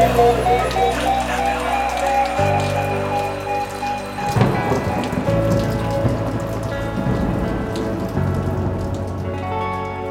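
A gentle drizzle of rain patters steadily on a surface, a continuous soft hiss of droplets that runs beneath music for the whole stretch.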